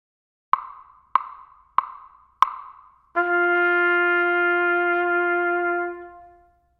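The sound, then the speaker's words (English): A musical whole note in 4/4 time after a one-measure count-off: four sharp, evenly spaced clicks, then a single sustained pitched tone that holds steadily for about a full measure before fading out. “A whole note sounds like this.”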